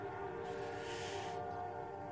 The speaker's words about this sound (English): Let the train go by.